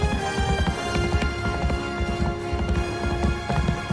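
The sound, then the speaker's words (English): A horse gallops across a bridge: fast, rhythmic hoofbeats repeat steadily throughout, under sustained musical tones. “He rears up, then gallops down the bridge with Lucky.”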